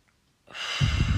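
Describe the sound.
A deep breath drawn in by someone calming down to fall asleep: one breathy rush that starts after a brief silence, swells louder, and gains a low rumble toward the end.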